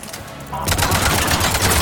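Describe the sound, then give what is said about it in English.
Video game gunfire in a side hallway starts after a quieter moment and becomes a loud, dense, rapid burst of automatic shots that continues to the end. “Where we shoot that guy in the back.”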